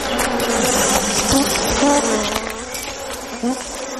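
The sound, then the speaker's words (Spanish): Bees buzz inside a beehive in a dense, continuous hum, with many overlapping wingbeat tones whining and wavering in pitch as individual insects pass close, steady in loudness apart from a brief swell near the end. “Acompáñenme, porque vamos a viajar a una colmena.”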